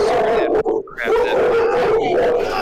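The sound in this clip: Hounds howl in long, wavering mid-pitched cries that hold steady, then bend and dip, with a brief break partway through.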